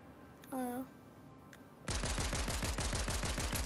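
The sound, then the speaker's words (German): Pistol gunfire in a shooter video game rings out as a rapid, evenly spaced string of many sharp, loud shots. The shots begin abruptly after a quieter stretch and continue without a break. “Ich schieße einfach mal drauf, vielleicht geben sie dir dann freie Sicht.”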